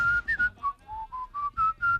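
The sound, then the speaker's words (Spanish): Whistling of a TV series theme tune, a clear, pure melody of several short notes that step up and down in pitch, steady and alone with no talk. “¿Has silbado alguna vez la sintonía, por cierto? Sí, hombre. A ver.”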